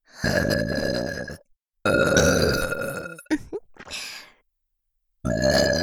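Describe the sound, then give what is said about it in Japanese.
Deliberate, drawn-out burps: a few long, deep, rasping belches separated by short silences. A choppy stretch of shorter gurgling bursts comes between them, and another burp begins as the sound ends. “愛情ゲップ。 どうぞ聞いて。”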